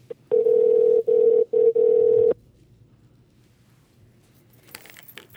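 A telephone dial tone sounds as a caller phones someone back. The steady, even hum lasts about two seconds and is broken by three short gaps, then gives way to near silence with faint clicks at the end.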